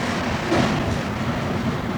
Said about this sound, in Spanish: Cuatro somos los que estamos en este último vagón del tren. La naranja serpentina empieza a recorrer el subsuelo para adentrarse en los territorios que nos comunican con el otro lado,